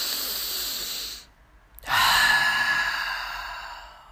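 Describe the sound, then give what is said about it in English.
A deep breath taken alone: a long, airy inhale, a short pause, then a louder, breathy exhale that slowly trails off. “Take a deep breath with me really quick.”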